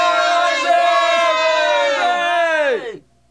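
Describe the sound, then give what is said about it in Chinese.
A crowd outside cheers and hails the king in a dramatized scene: many voices shout together in a loud, sustained acclamation whose pitch drops as it dies away, ending abruptly after about three seconds. “你听到外面的欢呼声吗？”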